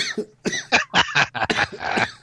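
Coughing comes in a rapid series of harsh, throaty bursts with brief gaps between them, loud and with no talk over it.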